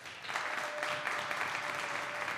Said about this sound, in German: So, jetzt erstmal euer Applaus für Jana und die Frage nach Hela oder Heinz Ketchup. Euer Applaus!